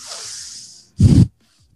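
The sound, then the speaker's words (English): Forceful nasal breathing in a power-breath exercise: a longer airy hiss that fades out, then a single short, sharp burst of breath after a brief gap. “So the power breath is just with the nose, and you're focusing the inhale and the exhale. So with the, so you're intentional with the inhale and the exhale. So this one sounds like this.”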